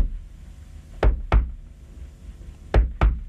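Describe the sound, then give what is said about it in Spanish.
Knocking on a house door by an older man with his own distinctive way of knocking: two quick double knocks, each a pair of sharp, solid raps separated by a pause of over a second. “Y bien que tiene la forma de golpear.”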